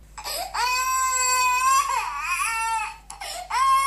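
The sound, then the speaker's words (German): A baby cries in long, loud, wavering wails, two sustained cries followed by shorter sobbing bursts, with the pitch bending up and down and no other sounds around it. “Babygeschrei”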